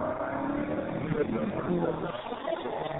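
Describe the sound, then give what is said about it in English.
A car without a muffler gives off a loud, steady engine drone that sounds rough, with people talking over it throughout. “Or it sounds like a motorcycle. It's a car without a muffler.”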